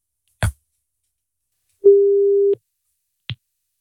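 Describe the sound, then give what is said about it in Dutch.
A single ringing tone of an outgoing smartphone call: one steady, mid-pitched tone lasting under a second, with a short click before it and another after it. “Ik ga nu 1 van de 2 bellen. Laten we beginnen met Sander. Even testen of hij snel opneemt of überhaupt opneemt als ik nu bel.”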